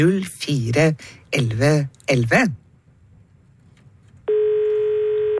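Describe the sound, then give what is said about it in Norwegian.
A telephone rings on a radio show's jukebox phone line after someone speaks briefly. The ring is a single steady electronic tone that starts late and lasts to the end. “Og det ringer I vår jukebokstelefon.”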